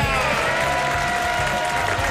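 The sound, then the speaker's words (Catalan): Euphoric applause and cheering rise from the studio audience of a football talk show, dense and unbroken, staying loud from start to finish. “Però què és aquesta? Eufòria desfermada entre el públic del programa.”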